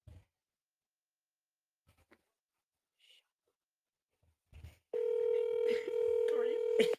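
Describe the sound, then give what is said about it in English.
A phone call is being placed to a friend. A few faint clicks sound in near silence, then a loud, steady telephone tone holds for about two seconds with a voice faintly over it. “We are dialing up a friend, Avery”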